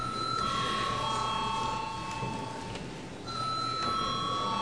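An electric bell rings in the Latvian parliament chamber to call deputies to a vote. It gives a steady, sustained ringing tone that dips briefly near the end, then carries on at full strength.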